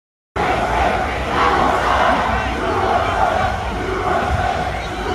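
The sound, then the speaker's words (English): A large crowd of counter-protesters chants "USA" in a loud, continuous roar of many voices that sets in abruptly after a short silence and keeps going without a pause. “And they're chanting it louder. There was way more of the counter-protesters. And they're chanting it so loud.”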